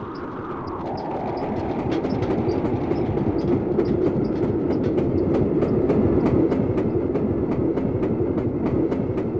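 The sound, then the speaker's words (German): A speeding train rushes along with a loud, steady rumble and a regular clickety-clack of wheels on rail joints running through the whole stretch, with no voices. “Der Zug raste dahin, näherte sich der Stelle, wo die zweite Gruppe der Trams ihn erwartete.”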